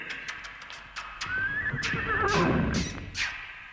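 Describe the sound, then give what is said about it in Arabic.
A horse gives a loud, drawn-out neigh as the voice of a winged horse in a dramatised tale, its whinny rising, wavering and then breaking into lower, rough snorting pulses. “انزل اوام، انزل يا حصان في غمضتين، في غمضتين يا ابو جناحين، في غمضتين.”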